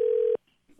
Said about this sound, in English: He's put his finger down on a number here, and he's starting to dial it.